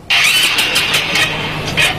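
A motorcycle that has suddenly stalled fails to start: its starter cranks in a loud, rough, continuous whirr for about two seconds, surging slightly, and the engine never catches.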